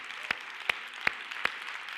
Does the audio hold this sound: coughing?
no